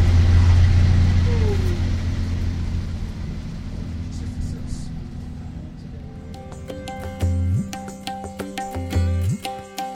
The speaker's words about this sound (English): This bus is headed back to the visitor center.